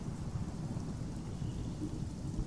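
A storm sounds as steady rain hisses over a continuous low rumbling that could be distant thunder. The noise stays constant in loudness from start to finish, with no voices or distinct separate events.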